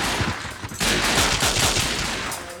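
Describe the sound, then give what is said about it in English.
Video game guns fire in dense, rapid bursts, with many sharp shots running together like automatic fire. The shooting is loud throughout and becomes denser after a brief lull. “So I guess now it's time to bring out the guns.”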